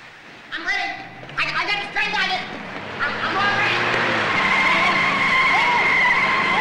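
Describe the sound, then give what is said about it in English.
An ambulance's tires screech in a long, loud skid on a hospital's driveway. A few short bursts come at the start, then a sustained squeal builds and holds steady to the end. “He runs away as the ambulance fails to stop and crashes into the entrance.”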